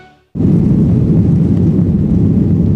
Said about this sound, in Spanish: Y hoy nos hemos subido de nuevo a un avión de Iberia.